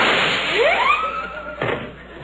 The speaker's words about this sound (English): Watch me light my cigarette by shooting it.